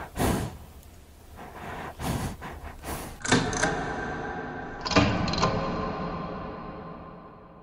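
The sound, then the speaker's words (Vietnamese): A door latch rattles as it is unbolted, a few wooden clunks and metallic knocks sounding in separate bursts with no voices. “nghe tiếng lạch cạch mở chốt cửa”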